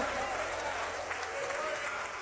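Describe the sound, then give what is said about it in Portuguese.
Congregation applauding during a church service, a thick, steady wash of clapping that stays level throughout. “Mais forte aplausos para o Senhor. Palmas e glória a Deus, igreja.”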